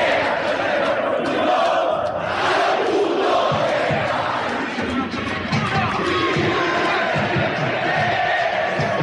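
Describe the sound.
Olimpia football fans roar in a stadium at a match against Cerro, a dense, continuous crowd roar with shouting and chanting that stays loud for about nine seconds.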